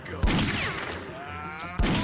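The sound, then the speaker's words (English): Gunfire in a video game ambush: two sharp, noisy bursts about a second and a half apart over a continuous hiss of game background sound. “It's an ambush. Oh, another one? He shot me. He shot me.”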